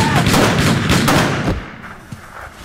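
Rapid bursts of gunfire fill an Italian comedy sketch, a dense, loud volley for about a second and a half. It cuts off abruptly and leaves a quieter tail with one faint click.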